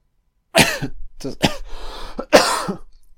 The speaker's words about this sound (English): apologies for the coughing